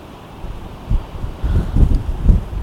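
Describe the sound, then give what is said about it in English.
Wind buffets a microphone outdoors during a camera shoot, producing low, rumbling gusts that swell irregularly and grow heavier toward the end. “It's just no good in this wind.”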